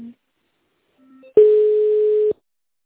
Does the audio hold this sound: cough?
no

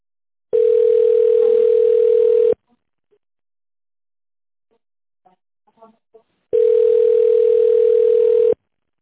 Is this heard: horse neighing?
no

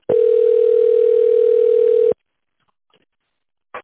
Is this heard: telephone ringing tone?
yes

